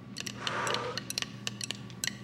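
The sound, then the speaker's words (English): Dice rolled for a board game: many small, sharp clicks and clatters in an uneven rhythm, fairly quiet, with no talk. “I'm going to roll the dice.”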